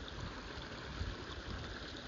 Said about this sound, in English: that sound of rushing water you hear is not any old waterfall. It's the sound of water rushing through a beaver dam at Ham Fen in Kent